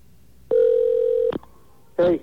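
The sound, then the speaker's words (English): An OmniPoint GSM mobile phone rings: a steady, mid-pitched electronic tone lasts under a second, then after a pause a second, warbling tone burst starts and carries on to the end. “the OmniPoint GSM phone that he is using will perform better than last week. Let's see what happens. That's the sound of it ringing now.”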